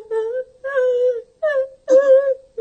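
A small creature cries in four drawn-out, whimpering moans with a wavering mid pitch, separated by short pauses.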